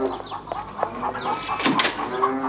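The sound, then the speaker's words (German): Restless farm animals, chickens among them, fill the air with overlapping clucks and calls. The calling is dense and continuous, with no clear pauses, over a busy background. “Warum sind die Tiere nur so unruhig? Sehr seltsam.”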